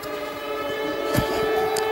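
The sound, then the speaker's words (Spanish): Air raid sirens sound over the city of Lublin, Poland, after a missile entered Polish airspace: a sustained, steady droning tone held without a break under a layer of background noise. “Las sirenas antiaéreas sonaban hoy en Lublin tras la entrada de uno de los misiles en el espacio aéreo de Polonia”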